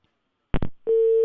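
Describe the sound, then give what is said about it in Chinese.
Telephone line tones while calling an office of a municipal postal administration: two brief clicks, then a steady mid-pitched tone that holds unbroken to the end. “长沙市邮政管理局市场监管科的电话暂时无人接听，所以我们现在来打一下办公室的电话，请办公室来进行一个转办。电话正在接通。”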